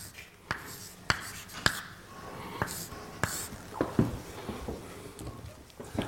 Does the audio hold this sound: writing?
yes